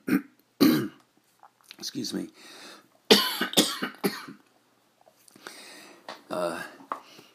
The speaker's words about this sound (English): my lung is getting healthy, but I'm sorry you have to hear me cough.